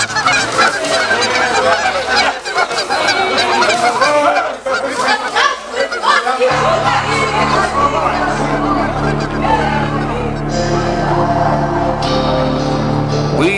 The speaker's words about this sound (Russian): преследуемые отрядом гусей, щипавших их за икры.